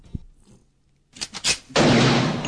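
A gunshot sound effect: a few sharp cracks, then a loud, sustained, noisy blast that runs to the end.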